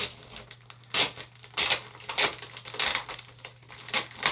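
Plastic packaging of an iPad case crinkles and crackles as it is unwrapped by hand, in several loud, uneven bursts separated by quieter rustling, with no talking.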